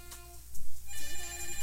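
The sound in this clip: A telephone rings for an incoming call, sounding a bright electronic tone in repeated bursts at moderate loudness, with no voices over it.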